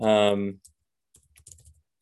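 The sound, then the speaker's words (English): Typing on a computer keyboard while writing a code comment. A short spoken phrase comes first, then after a pause a quick, light run of soft key clicks. “I'm going to finish typing up this comment and then we can move on.”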